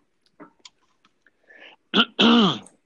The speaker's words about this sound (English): Let's get you on a routine and get that throat cleared, man.